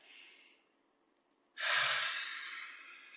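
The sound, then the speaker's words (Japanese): A deep breath taken as a short stretching break: a soft, brief inhale, then after a pause a long, loud, breathy exhale that lasts well over a second, with no talking. “じゃあちょっと体を動かして。はい、じゃあ深呼吸して。”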